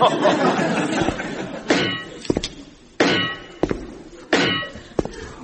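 Clanking footsteps of a metal leg, a series of heavy metallic clunks and ringing clangs in an uneven, lurching rhythm, each striking loudly and then fading.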